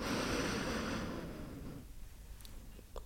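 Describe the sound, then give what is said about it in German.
A deep, slow inhale through the nose while smelling cocoa: a steady, breathy hiss lasting nearly two seconds that then drops away to near quiet. “Atme den Duft des Kakaos tief und genüsslich ein durch die Nase.”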